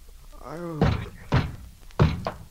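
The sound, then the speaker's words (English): Police bang on a door with three heavy, booming thuds, evenly spaced about half a second apart. A voice speaks just before the first blow. “Oh, don't tear the door down. I'm coming.”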